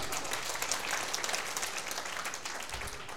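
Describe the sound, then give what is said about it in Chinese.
An audience applauds a person who has just answered a quiz question correctly: faint, steady clapping with a dense, even patter that continues throughout. “7.5次，我俾你掌声佢。”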